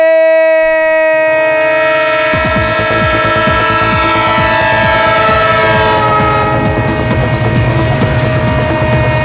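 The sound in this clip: A train horn sounds in a radio football jingle. A loud, sustained chord-like blare holds throughout, and after about two seconds rhythmic clattering of rail wheels joins underneath. There is no talking.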